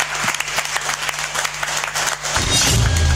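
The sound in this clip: Applause for a singer, dense and continuous clapping with a low steady hum beneath, and a different sound rising in near the end.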